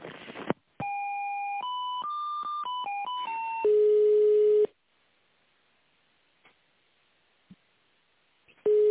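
Telephone line tones play while a call is being transferred to an office department: a quick run of stepped electronic beeps shifting in pitch, then a longer steady tone, near silence, and the tone returning briefly at the end.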